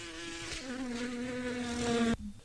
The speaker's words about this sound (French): je vais vous parler d'un animal dangereux pour l'homme. Devinez lequel ? C'est le moustique ?